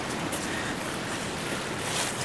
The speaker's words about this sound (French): Et puis là, en face, on a la mer qui est en train de monter, mais qui a laissé quand même un premier passage de marée.